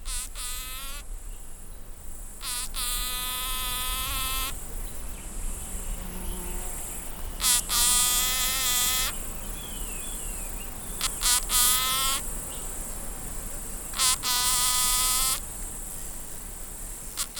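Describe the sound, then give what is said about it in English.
Buzzing of a native bee buzz-pollinating a solanum flower in the Capertee Valley: loud, whining, harmonic-rich bursts that come in several spurts of one to two seconds, separated by quieter gaps. “what you're hearing is a native bee buzz pollinating a solanum flower”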